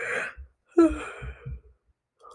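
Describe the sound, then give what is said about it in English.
A yawn: a breathy rush of air, then a drawn-out voiced stretch that trails into softer breaths. It is fairly quiet, with no speech. “sorry, I yawned”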